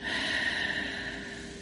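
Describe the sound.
Steady, airy breathing from a relaxation exercise, one continuous, fairly loud hiss of breath lasting under two seconds, with no talk over it.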